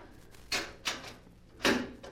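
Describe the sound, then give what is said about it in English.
A metal safe hidden behind a screen is opened, giving three separate clunks with sharp metallic edges and quieter gaps between them. “There's a safe behind it. Yes. Now watch. I shall open it and you shall see.”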